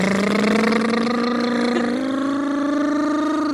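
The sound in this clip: Steady engine drone from a car being driven, a constant low hum that steps slightly higher in pitch midway and then cuts off abruptly at the end.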